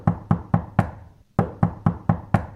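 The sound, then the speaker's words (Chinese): Knocking on the door of a house: four sharp knocks, a brief pause, then five more in an even, insistent rhythm. “敲咗好耐啊，都冇人嚟回应。”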